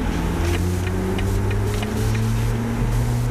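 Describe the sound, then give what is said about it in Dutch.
A BMW i4 electric car drives with a steady low hum, faint tonal whines and constant road noise, and a faint regular ticking from the turn signal runs throughout. “ik heb een fatsoenlijke elektrische BMW getest, i4, en die klinkt zo.”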